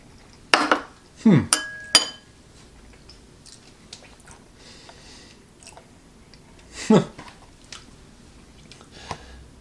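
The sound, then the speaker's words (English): Eating Wacky Mac macaroni and cheese: a few light clinks of cutlery against a dish, with soft chewing between them and long, quiet gaps. “The Wacky Mac. But how does it taste? That's the most important thing. So 3, 2, 1.”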